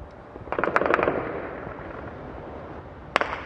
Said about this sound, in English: Automatic weapon fire has been erupting all evening in the capital as gangs of looters wander the city.